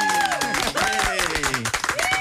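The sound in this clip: A studio audience claps and cheers to welcome back a guest, with loud voices calling out and whooping over the clapping throughout.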